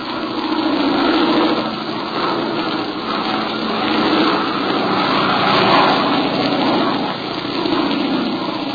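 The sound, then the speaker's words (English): Propeller engines of a heavy wartime bomber pulling away drone loudly and steadily, a dense roar that swells and eases slowly in loudness, with no voices. “completed bomber pulls away only a brief time after its journey began. And minutes behind it is another, and another, and still more.”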